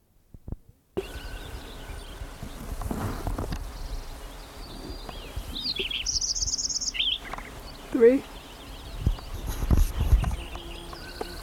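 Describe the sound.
A sparrow sings a few short, high chirps and trills over a background of low knocks and rumbling noise.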